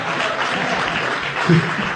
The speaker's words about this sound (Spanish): Ahí va el aplauso.